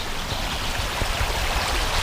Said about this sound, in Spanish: Hemos puesto el micrófono en la sierra de Algairén y el curso del río Huerva que abrazan el mar de Viñas.